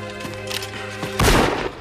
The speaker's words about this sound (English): Carrying a pistol in each hand, Ned lurches forward and fires a shot in the air.